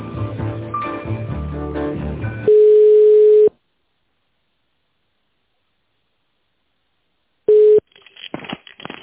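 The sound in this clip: Telephone line tones while a call is transferred: one steady mid-pitched tone lasting about a second, then several seconds of silence, then a shorter tone at the same pitch followed by faint line noise.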